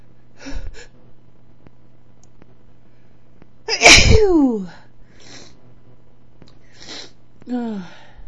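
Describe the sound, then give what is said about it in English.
One loud, explosive human sneeze is preceded and followed by short breathy gasps and soft vocal sounds. The sneeze stands out clearly against quiet background hum. “Oh, I have to sneeze.”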